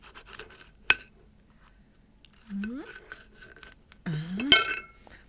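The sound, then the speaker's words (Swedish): A knife cuts through a tough, leathery fruit peel under hard pressure, with a sharp click and then two squeaky, rising scrapes as the blade forces through, fairly faint and alone. “Det är ganska segt skal här. Så att jag får verkligen ta i för att lyckas skära igenom. Nu kommer jag igenom.”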